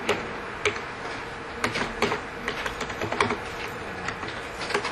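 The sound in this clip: Typing on a computer keyboard while filling in a form field: many quick, irregular key clicks in bursts, with no voices.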